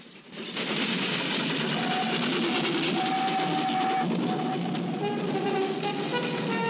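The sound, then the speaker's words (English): A train passing by, its loud continuous rumble and rattle swelling up within the first second and holding steady, with faint tonal whines running through the roar. “The children stand watching a passing train.”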